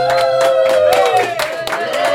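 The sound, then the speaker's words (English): A live audience in El Paso cheers, whoops and claps loudly and continuously, with many shouting voices over scattered hand claps. “We have Daniel from Sleepwalker Station in the house, and we have a live audience. Live audience, let them hear you. How you guys doing?”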